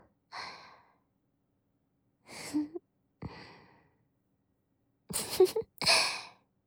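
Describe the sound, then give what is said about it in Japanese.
A big, soft yawn draws out into breathy exhalations, followed by a few more quiet sighing breaths spaced apart. “マスター、おっきなあくび。疲れちゃった？それとも、安心してくれた？”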